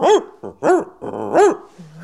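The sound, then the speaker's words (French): A dog barks and yowls as if singing, with three loud pitched bark-howls that swoop up and down. Short grunting barks fall between them, and a low growl comes at the end. “Monsieur Chien ne se fait pas prier. Il se met à danser, à chanter.”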